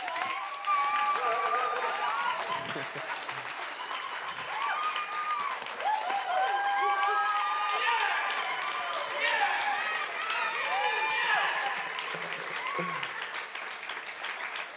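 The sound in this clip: Applause from a church audience welcomes a worship leader to the stage. Steady, dense clapping fills the whole stretch, with voices cheering and whooping over it.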